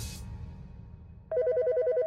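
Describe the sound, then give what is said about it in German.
An incoming call sets off a phone's electronic ringtone partway through. A low, murky background gives way to a loud, steady stream of rapid repeating beeps. “Da ist er, der Anruf.”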